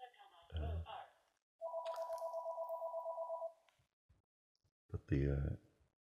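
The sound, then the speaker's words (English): Telephone ringing with a rapid, warbling electronic trill lasting about two seconds, with a person speaking briefly before and after it. “pardon the phone”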